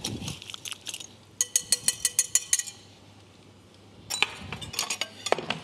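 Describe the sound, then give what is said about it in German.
A spoon or utensil clinks against a bowl while a marinade of olive oil and sea salt is stirred. A rapid run of sharp clinks is followed by a quieter pause, then another burst of taps and scrapes. “Das Ganze wird verrührt.”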